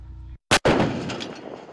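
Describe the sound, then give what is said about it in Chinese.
A single artillery gun fires at a target during live-fire training: one sharp, loud blast followed by a long, rumbling tail that slowly fades. “炮长借用考核间隙迅速复盘总结，及时测算修正量，并调整射击参数，再次对目标实施打击。”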